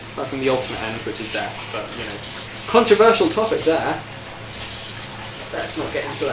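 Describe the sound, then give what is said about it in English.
Running water splashes and swishes as a bowl is washed out in a sink, a steady wet rinse with a louder burst partway through, under someone talking. “What are these sounds you're hearing right now? That is me washing out my bowl, ready to put pie in.”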